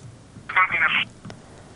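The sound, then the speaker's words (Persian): A single telephone ring on a radio phone-in line as the next caller comes through: a bright, buzzing tone burst of about half a second, followed by a brief click over low background noise. “بله، تماس از یا فکر میکنم قطع شد، تماس بعدی رو میگیریم.”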